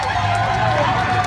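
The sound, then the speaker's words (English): A crowd of people waiting outside the Kennedy Center makes a loud, dense roar of many voices that blend into a continuous babble. “that is the sound of the people have been waiting here since 10 a.m.”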